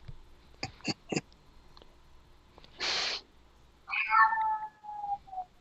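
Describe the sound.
A human voice imitates a cat's meow in a drawn-out, wavering mew that falls in pitch. It comes after a few sharp clicks and a short hissy burst, and the whole clip is fairly faint.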